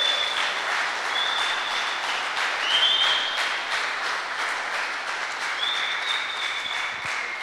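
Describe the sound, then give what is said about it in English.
A church audience applauds a visiting preacher on a Sunday morning, a steady, moderately soft patter of many hands that swells slightly around the middle and carries on evenly for several seconds. “Let's give him a hand, and let's welcome him this morning.”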